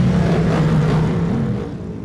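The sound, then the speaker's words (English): Racing machines set off on a warm-up lap with a loud, dense engine roar. The noise holds steady and eases slightly toward the end. “So everyone's frantically getting their gloves back on, getting back on the machines. And they are now on their way for that one warm-up lap”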